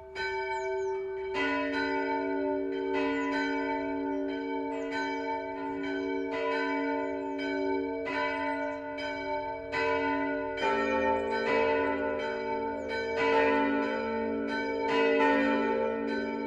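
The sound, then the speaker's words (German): Noon bells of the Protestant Michaelskirche in Rasch, Middle Franconia, ring out in full, steady peals. Many overlapping strikes form a continuous ringing, and the texture thickens partway through as another bell joins. “Das Mittagsläuten kommt heute von der evangelischen Michaelskirche im mittelfränkischen Rasch.”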